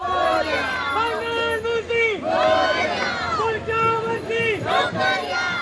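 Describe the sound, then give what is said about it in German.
About a hundred people at a Ganesh festival procession in Mumbai shout loud, rhythmic chants in unison as they follow a flower-decked truck carrying a tall deity statue, the calls rising and repeating in waves. “Ganpati Bappa Moya. Väterchen Ganesh lebe hoch. Mit lauten Rufen folgen etwa 100 Menschen einem mit Blumen und bunten Papiergirlanden verzierten Lastwagen, auf dem eine meterhohe Götterstatue thront.”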